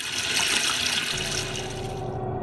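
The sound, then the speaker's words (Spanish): Water runs from an opened tap for rinsing, a loud, continuous rushing stream that holds steady throughout. “si solo abrimos la llave para enjuagar, se utilizan entre 15 y 22 litros”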